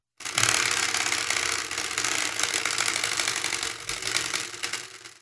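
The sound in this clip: Rapid, dense clatter of a spinning prize wheel ticking for about five seconds, the mechanical clicks rattling steadily and thinning out near the end before stopping. No voices.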